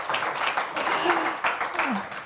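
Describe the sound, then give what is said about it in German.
Audience applause as a guest walks up to the front, a dense, steady patter of many hands lasting the whole moment, with some vocal sounds mixed in. “Komm zu uns nach vorne und der Applaus hält, bis du die Schlange durchläufst.”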